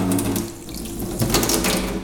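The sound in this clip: Water runs from a tap into a sink, with the microphone inside the sink, making a steady, full rushing splash that carries on for the whole clip and swells slightly partway through.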